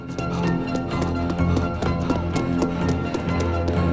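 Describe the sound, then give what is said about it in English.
Hurried running footsteps of a man fleeing for his life along a road, a quick, steady series of sharp taps over a sustained tonal music bed that continues throughout. “Eventually, the beams pick up Buddy, running for his life, and the ball of light becomes more defined as Christine, with flames licking around her front.”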